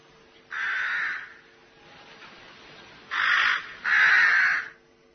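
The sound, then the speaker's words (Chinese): A crow caws three times in harsh, nasal, drawn-out calls. A long pause follows the first call, and the last two come close together, fairly loud against a quiet background. “这时候飞来一只乌鸦”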